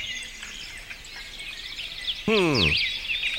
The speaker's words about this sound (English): said listening to birds sing for 10 minutes can help get rid of your stress. Huh. Okay, let's try this. Cue the birds.